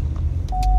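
A car's low-fuel warning chime sounds as a single steady, mid-pitched tone that starts partway through over a low engine hum.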